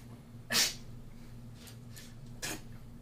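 A single sharp, breathy sneeze bursts out loudly, followed by quieter breathing and a softer second burst of breath.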